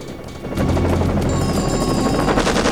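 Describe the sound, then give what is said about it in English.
Dense helicopter rotor roar with rapid machine-gun covering fire from the chopper, starting after a quieter half-second and holding loud and steady to the end, with a rattling, crackling texture. “Beckett orders a gunman on the chopper to lay down covering fire”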